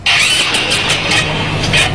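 A stalled motorcycle's starter cranks repeatedly as the engine fails to start, a loud whirring churn with rhythmic pulses that runs throughout without catching.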